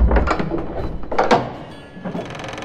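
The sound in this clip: A door in an audio drama opens with a few mechanical thunks and clacks, like a latch and heavy hinges, each a short loud burst with quieter rattling between them.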